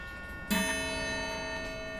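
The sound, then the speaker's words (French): A clock hammer strikes a coiled tempered-steel spiral gong once. The chime has a sudden bright attack and a rich, many-toned metallic ring that sustains and fades slowly. “c'est ce qu'on appelle la sonnerie bim bam. C'est un morceau d'acier trempé enroulé en spirale, et le marteau tape dessus et ça fait ce bruit là.”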